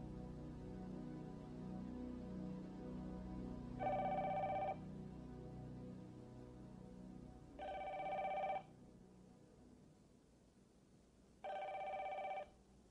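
A telephone bell rings three times, each ring a bright, steady burst about a second long and spaced a few seconds apart, over a low murmuring background.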